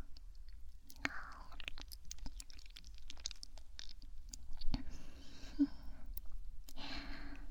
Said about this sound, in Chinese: 真的很好吃呢。我还想要这样吃，可以吗？